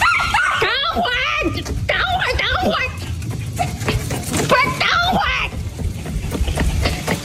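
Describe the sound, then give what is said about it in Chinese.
A dog being taken out for a walk in a village yips and whimpers in short, high bursts while people talk over it. “这狗能走，你说这兜兜啥也不弄咋走的”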